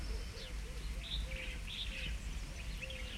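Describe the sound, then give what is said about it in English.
Birds sing outdoors with faint, repeated high chirps and short warbles over a low steady background rumble, while a softer, lower whistled note recurs between them. “Hearing the bird, feeling the coolness of the air on your face, hearing the birds.”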